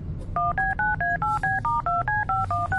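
Telephone keypad tones beep as a number is dialled, a quick, even run of many short two-note beeps, each clipped and evenly spaced.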